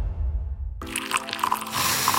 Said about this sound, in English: That's the smell of carefully crafted coffee being poured into your cup